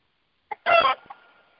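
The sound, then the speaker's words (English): A video-game chicken gives one short, bright cluck, preceded by a faint click and followed by a soft fading tail, with silence around it. “the chicken just picked up its own feather”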